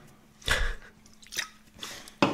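Drinking from a can of Hell energy drink live on stream: a few short, wet mouth-noise bursts of sipping and swallowing, heard alone without talk.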